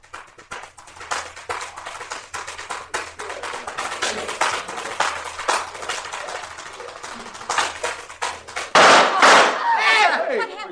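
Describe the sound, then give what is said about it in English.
A gunshot in a radio drama rings out near the end as a sudden loud burst, after a long run of quick, uneven taps from tap dancing without music. “What happened? He's been shot. Someone shot Claude Berkeley. He's dead.”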